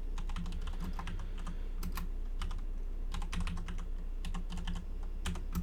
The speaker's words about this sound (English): I typed in Tales of Halloween sequel.